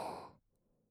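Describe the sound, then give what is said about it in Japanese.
A single deep, breathy inhale during a relaxation breathing exercise, soft and airy, fading out within about half a second and followed by near silence. “呼吸を整え、リラックスするため深呼吸をいたしましょう。吸って、”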